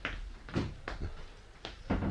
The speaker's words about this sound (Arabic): استنى اما اقفل الباب علينا.